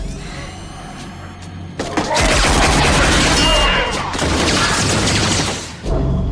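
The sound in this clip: Gunfire erupts during an armed hostage standoff, a dense, loud barrage of rapid shots that roars for about four seconds before cutting off abruptly.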